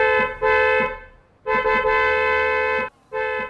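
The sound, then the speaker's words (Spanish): Car horn honking in a few long, loud, steady blasts separated by short gaps; the horn is a model meant to carry a long way, sounded by someone who keeps honking without stopping. “Individuo que no puede dejar de tocar la bocina. El cliente dejó de taparse los oídos después de tremendo ruido.”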